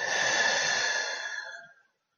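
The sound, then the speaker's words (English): A long, slow exhale during a guided breathing exercise, a steady breathy rush that holds evenly for about a second, then thins and fades out before two seconds, heard alone with no talking. “Last one. Inhale. And exhale.”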